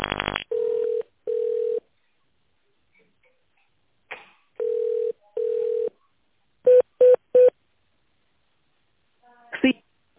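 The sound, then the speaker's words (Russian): Telephone keypad and line tones on a call to a construction company's automated menu: two pairs of steady, mid-pitched tone bursts, then three short, sharp beeps, with a brief click at the very start. “Для соединения с отделом снабжения наберите 1.”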